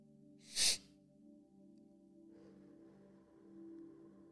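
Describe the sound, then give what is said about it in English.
A breathing exercise brings one loud, sharp burst of breath near the start. Quieter, faint breathing sounds follow, with no talking. “I do a deep breath in. And then I do one more inhale sharp. So I go and then I do the exhale nice and short.”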